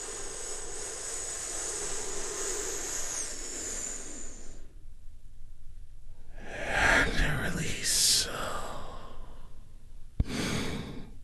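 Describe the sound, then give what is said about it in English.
Deep breathing during a guided relaxation exercise, heard as two airy, breathy sounds. The first is long and the second shorter, with no talk over them. “I want you to take a big, deep healing breath with me right now. Here we go.”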